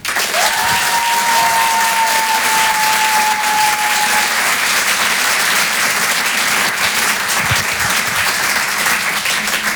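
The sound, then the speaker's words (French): Loud, dense applause from a comedy-show audience welcoming a stand-up comedian to the stage for a first appearance, sustained at an even level for the whole stretch, with a steady high tone during the first few seconds. “Faites du bruit, s'il vous plaît, pour son tout premier passage sur Rire et Chanson, Simon Pinto.”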